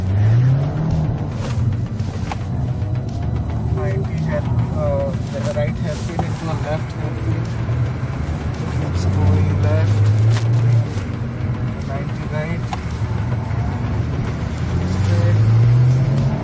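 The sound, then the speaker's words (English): Engine of an RS sports car at full throttle, heard from inside the car while a professional driver pushes it hard; a loud, sustained roar whose pitch climbs and drops through repeated surges of revs. “From the wrong seat, with a professional driving, you finally hear what 50 years of the RS sound like with absolutely nothing held back.”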